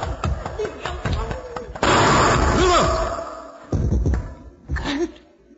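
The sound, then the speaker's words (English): A gunshot as a gun goes off in a struggle over it: an abrupt, loud blast cuts into tense voices and fades into a rumble, with talking and further bursts afterward. “He had a gun. He was going to kill me. I grabbed his arm and it, went off.”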